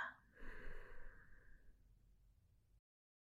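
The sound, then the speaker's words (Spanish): A slow exhale through the left nostril during a breathing exercise is a single soft, airy rush. It swells quickly, then thins out and fades over about two seconds before silence. “Libera tu fosa nasal izquierda y exhala.”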